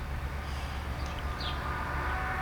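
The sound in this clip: An old locomotive runs with a steady, low, rumbling drone that holds evenly throughout. A few faint high squeaks sit above it, with no distinct beats.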